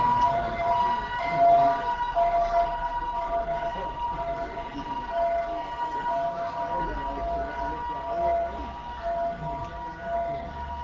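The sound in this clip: A fire engine siren wails continuously over a low road-traffic rumble, holding a steady, moderately loud tone for the whole stretch without a break.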